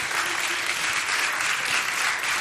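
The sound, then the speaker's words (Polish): A studio audience applauds a group of performing artists with dense, steady clapping that holds an even level throughout, with no voices heard over it. “Ogromne brawa się należą, myślę, proszę państwa, wszystkim.”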